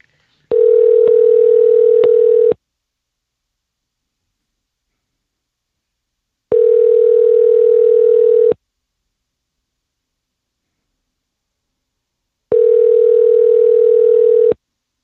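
Three ringback tones from a phone call placed to leave a message, each a steady, even two-second tone, separated by about four seconds of silence, with no voices.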